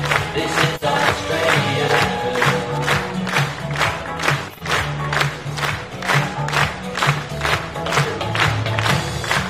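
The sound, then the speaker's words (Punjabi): A crowd cheers and claps for Prime Minister Anthony Albanese as he arrives at the Perth Convention Centre to launch Labor's election campaign. The loud, sustained roar carries steady rhythmic clapping throughout. “Perth convention centre ਵਿੱਚ labour ਦੀ ਚੋਣ ਮੁਹਿੰਮ ਦੀ ਸ਼ੁਰੂਆਤ ਕਰਨ ਲਈ ਪਹੁੰਚੇ ਪ੍ਰਧਾਨ ਮੰਤਰੀ Anthony Albanese ਨੂੰ ਇੱਕ ਰੌਕ ਸਟਾਰ ਵਰਗਾ ਸਵਾਗਤ ਮਿਲਿਆ।”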